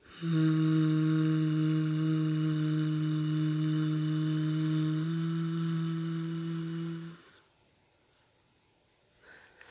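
A bee-breath breathing exercise for releasing tension: a long, steady, low hum held on one exhaled breath for about seven seconds, buzzing like a bee, then fading into soft breath noise. No talking.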